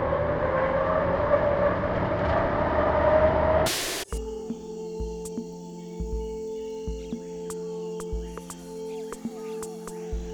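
A loud, dense roar of engine noise from a launch surges for about four seconds, then cuts off abruptly. A steady low hum follows, with a few faint clicks.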